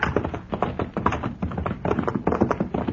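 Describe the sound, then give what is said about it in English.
Hooves of horses, a buckskin among them, setting off on a ride in the dark: many quick clopping beats in a steady, fairly loud run, with no talking. “This cussed buckskin can drink more water than a Texas mule. Yeah, no, they've had enough. Yeah. All right, let's ride.”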